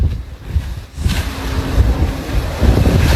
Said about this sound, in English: So he's literally just driving his Tesla Cybertruck in a lake right now.